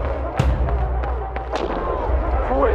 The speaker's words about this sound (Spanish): Esa vieja me pegó un tiro.